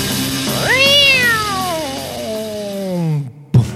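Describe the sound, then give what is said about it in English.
A cat swung around by the tail lets out one long, loud yowl. It climbs sharply in pitch, then slides slowly down like a siren and ends with a brief thud. “Four-way tornado siren. What's that? Well, you grab a cat by the tail and swing it around.”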